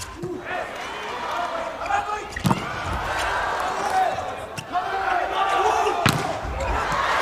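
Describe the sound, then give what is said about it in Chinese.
Serve and rally thumps in a volleyball match between Iran and Japan, with Iran's number 49 Sharifi serving: a few sharp ball strikes ring out over steady crowd noise while a commentator speaks. “四十九号沙里菲的发球”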